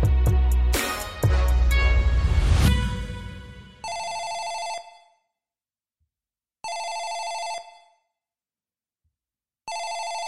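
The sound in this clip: A telephone rings in three evenly spaced electronic bursts of a bright, buzzing tone, preceded by a few seconds of loud clattering and rustling.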